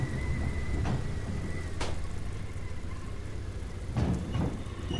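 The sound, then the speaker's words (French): Rain falls on ships' tarpaulins as a dense, even patter. A few louder bursts of heavier drumming rise above the steady wash. “De la pluie sur les bâches des navires.”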